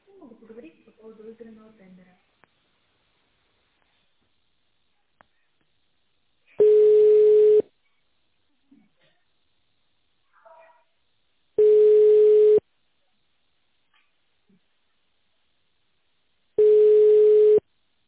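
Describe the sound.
A telephone line tone plays while a caller holds for an extension at a medical company. Three steady tones of about a second each repeat roughly five seconds apart, with brief talk at the start.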